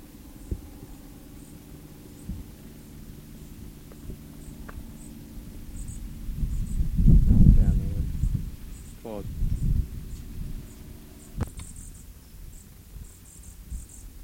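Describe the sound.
Thin, high chirps of a bird chick calling over and over as its parents feed it among dry grass below an oak tree, faint and evenly spaced over low rustling and brief murmurs.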